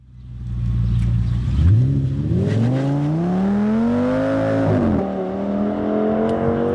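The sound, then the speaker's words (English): A car engine revving: a low idle jumps into a loud rev whose pitch climbs steadily, dips briefly, then rises again and holds a high, sustained whine. “That is the sound of a car, isn't it”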